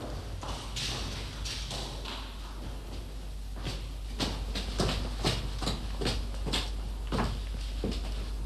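Footsteps climb a dark stairway as a steady series of soft taps and thuds, faint at first, then more distinct and regular over the latter half.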